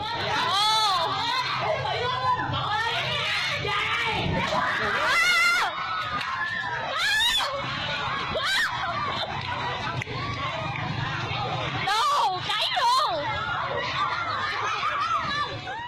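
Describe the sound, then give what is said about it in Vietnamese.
People scream and shout at the scene of a fire in Ninh Hòa, Khánh Hòa province, Vietnam. Shrill cries and agitated chatter overlap continuously for about sixteen seconds, with excited voices throughout. “Mời quý vị nghe lại âm thanh thu được tại thời điểm xảy ra vụ cháy.”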